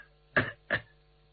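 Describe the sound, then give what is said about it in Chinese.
A light, soft double cough, two short throaty bursts in quick succession, given to quietly announce oneself before speaking; low and restrained with near-silence around it. “先轻轻的咳嗽一声，别把他爹吓着，先打个招呼”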